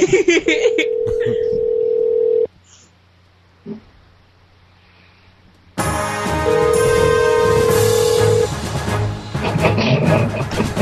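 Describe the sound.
Ringback tone of an outgoing phone call: two steady mid-pitched rings, each about two seconds long, separated by a quiet pause, with people talking over them.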